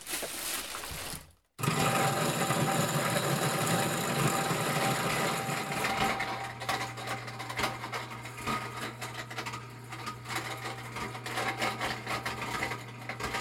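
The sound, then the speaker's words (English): A Champion juicer with a grain mill attachment and heavy-duty motor grinds corn, a loud, steady whirring grind that stops briefly near the start, then resumes and settles into a more even motor hum. “And then they bring it inside to grind it. They have a grain mill attachment for their Champion juicer. It's one of those classic juicers with a heavy-duty motor. I'm going to grind it twice because you have to crack it first.”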